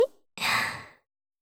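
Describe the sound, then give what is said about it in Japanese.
Breath blown softly onto someone: a single airy puff of about half a second, rising and then fading, after a brief faint click. “ふうふう息を吹きかけられるのにも弱いんだ。”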